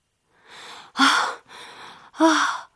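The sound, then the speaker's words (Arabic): Someone gasps for breath as water gets into their nose while playing. Two softer breaths alternate with two loud, sharp gasps, each about half a second long, and no one speaks. “ثم بدأ يدخل الماء إلى أنفه وشعر بصعوبة في التنفس.”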